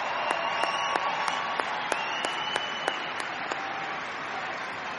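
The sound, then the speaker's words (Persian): Audience applause for the evening's performers, soft and steady clapping from a gathering, with a few sharper individual claps standing out above the wash. “واقعا واقعا یه دست برای بابک.”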